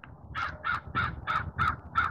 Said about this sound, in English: Crow having issues.